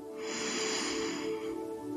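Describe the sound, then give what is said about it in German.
A deep breath drawn in slowly, heard as a continuous soft airy hiss that holds steady for about two seconds before easing off slightly at the end. “Noch einmal, atme tief ein”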